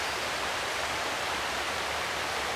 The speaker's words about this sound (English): And there are two rivers. So this that you can hear is the South Esk.